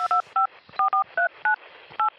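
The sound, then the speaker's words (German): Telephone number being dialed, a quick series of about eight crisp DTMF keypad tones, each a short steady two-note beep separated by uneven gaps, fairly loud and clear over quiet background. “Da muss ich sofort meinen Freund Mickey Beisenherz anrufen.”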